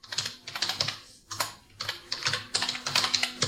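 Typing ordinary text on a computer keyboard: quick bursts of crisp key clicks come in several runs with brief pauses between them, clear and alone.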